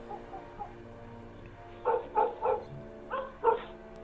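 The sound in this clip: A dog barks in the yard, giving a run of five sharp, evenly spaced barks near the end over a low, steady background hum.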